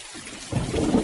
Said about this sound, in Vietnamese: Lúc này mưa vẫn chưa tạnh, tiếng sấm y ầm không dứt.